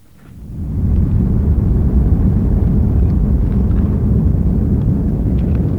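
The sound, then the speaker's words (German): An airplane lands at the Chrabrovo airfield near Kaliningrad, a former air force base, with a loud, low, continuous rumble that swells over the first second and then holds steady. “Landung auf dem Flugplatz von Chrabrovo im Samland, das Powunten hieß, als die Luftwaffe hier stationiert war.”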